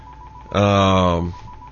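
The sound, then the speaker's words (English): A telephone rings once with a loud, buzzy, steady tone lasting under a second, alone against a quiet background. “I don't know why that phone is ringing, but because we have not opened the phone line, so let's do that.”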